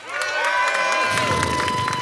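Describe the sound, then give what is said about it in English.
An audience applauds and cheers after a debate round, a dense, loud wall of clapping and shouting that swells quickly and holds steady to the end. “made the best case, applaud now.”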